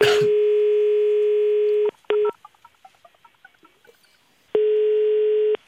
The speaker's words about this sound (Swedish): Ska vi ringa upp? Ja, det gör vi.